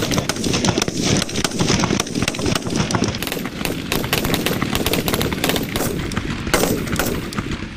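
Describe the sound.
Rapid rifle gunfire during marksman shooting practice, with many loud, sharp shots cracking in a dense, nearly continuous stream. The volleys overlap unevenly and barely pause, sounding like several shooters firing at once.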